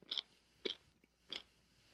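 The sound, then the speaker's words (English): Biting and chewing a spicy garlic pickle: four crisp, wet crunches spaced about half a second apart, fairly faint and with no talk. “I'm going to need another bite. There's a lot of like general heat. It's just like a generally hot one. And it's not even like a slow burn. It's like a, hey, I'm here to spice you up. That's the pickle talking.”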